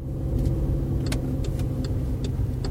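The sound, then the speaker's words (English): A car drives through a housing project on the edge of Dewsbury in the north of England. A steady low engine rumble runs throughout, with a few faint light clicks and ticks scattered above it. “The Reverend Kathy Robertson is driving me around the housing project where the Matthews family lived. This is the edge of Dewsbury, a town in the north of England.”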